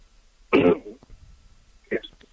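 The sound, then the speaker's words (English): Someone clears their throat twice as if something is caught in it: a strong, rough burst, then a shorter, weaker one after a brief pause. “No, it was me. I kind of had something caught my throat. I'm sorry.”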